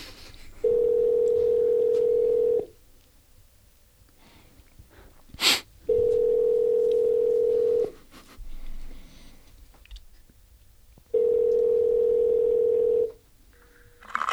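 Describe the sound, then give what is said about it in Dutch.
Ringing tone of an outgoing telephone call, three long, steady, evenly spaced tones separated by quiet gaps, with a faint click and low background rustle between rings. “Ik kan hem eerst even bellen.”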